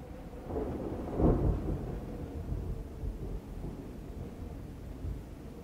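A thunderstorm with a deep roll of thunder rumbling up early and swelling, then easing into low grumbles over a steady bed of falling rain, with no voices.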